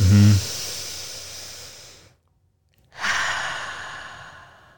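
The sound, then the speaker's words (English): A big, deep breath taken while sitting on a yoga mat: a long, airy hissing breath that gradually fades, a short silence, then another long breathy rush that tapers off. “when I sit down on the mat and I take that first big inhale.”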